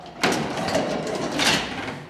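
An elevator door in a Lisbon apartment building slammed shut during a move: a sharp onset followed by a rattling, scraping sustain, then a second burst about a second later.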